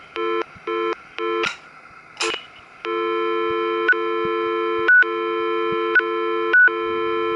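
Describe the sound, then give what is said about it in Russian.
Key-press beeps from a telephone being programmed into memory: four short tone bursts, then a steady sustained tone broken by a few brief, higher beeps. “программирование еще доносится специальным звуковым сигналом. Нажатие клавиш. Сейчас продемонстрирую вам.”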